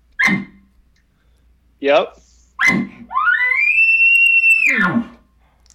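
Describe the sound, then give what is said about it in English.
Bull elk bark scream: a few short, sharp barking blasts, then a long, high, whistling scream that holds steady before breaking off. “yep, that's it. That's a bark scream.”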